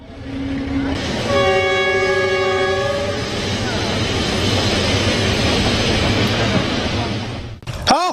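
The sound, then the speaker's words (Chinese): A train passes on a railway line beside a track maintenance crew. Its horn sounds a steady chord for about two seconds over a continuous loud, rushing rumble that holds, then drops away abruptly at the end. “列车已过，大家开始继续作业。”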